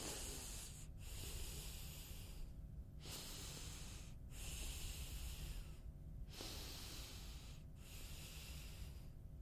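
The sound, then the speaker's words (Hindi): Deep, long breaths taken during a guided wellness ritual, slow airy inhales and exhales in a steady cycle, soft and hissy, separated by several brief pauses, with no talking. “सबसे पहले गहरी लंबी सांस.”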